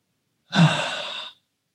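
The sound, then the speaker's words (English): A person draws a single deep breath, a breathy sigh-like rush of air that swells quickly and then holds steady for under a second before stopping abruptly, heard alone without talk. “Did anyone just want to take a deep breath when I took a deep breath?”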